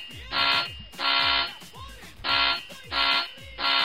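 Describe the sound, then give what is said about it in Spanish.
Harsh electronic alarm buzzer sounding in five loud, rasping bursts at an uneven rhythm, each lasting about half a second, with the last burst cut off at the end. “Solo falta que nos suene una alarma.”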